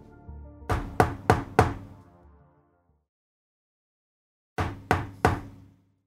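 Knocking on a door: four firm, hollow knocks in quick succession, then a few seconds of silence before three more knocks in the same steady rhythm. No voices are heard.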